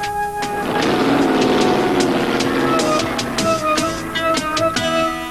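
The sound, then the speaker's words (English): A car drives off: its engine note rises and revs steadily, with sharp rhythmic clicks and knocks running through the sound before it settles. “Before I drive off, I always buckle my seatbelt. I want to be safe.”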